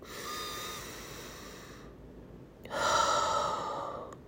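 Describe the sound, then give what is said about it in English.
A single deep breath: a long, airy inhale lasting about two seconds, a short silent pause, then a fuller, louder exhale sighing out, with no voices. “Take a deep breath.”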